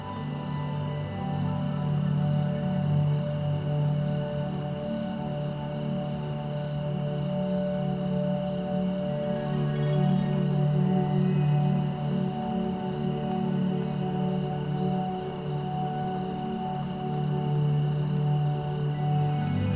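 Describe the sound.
Steady rain falls in a continuous, even wash of patter that holds at the same level throughout, with no voices.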